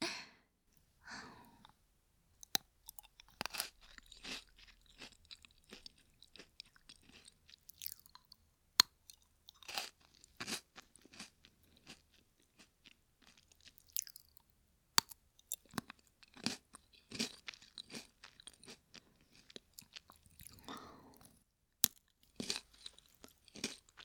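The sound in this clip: Crunchy food being chewed, with many quiet crunching bites in an irregular rhythm and soft breaths between them, and no talking.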